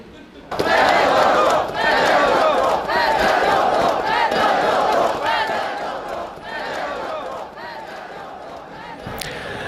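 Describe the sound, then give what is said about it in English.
Street protesters in Ukraine chant against the president's sudden firing of his defence minister. A loud crowd chants in repeated rhythmic bursts over a continuous roar of voices, easing slightly toward the end. “Sounds there of protesters campaigning against the president there in protest at his decision to fire his defence minister.”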